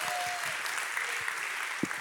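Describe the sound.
Audience applause welcoming a guest speaker at a Westgate evening gathering, a dense steady clapping that fills the whole moment, with a few sharper claps standing out near the end.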